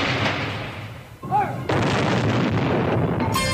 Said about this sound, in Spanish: El enviado de los Lumière acudió entonces a la reina y esta dio la orden de disparar los cañones para el cine